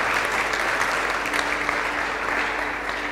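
An audience applauding in church, a steady, dense wash of clapping hands that holds at an even level for the whole moment.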